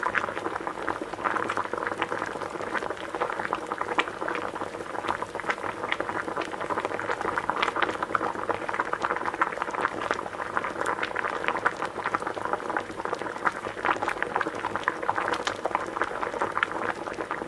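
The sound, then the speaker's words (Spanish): Water boiling in a large cauldron over a fire, a faint, steady bubbling and popping that runs on evenly without a break. “cuando el lobo cayó por la chimenea, el agua ya estaba hirviendo”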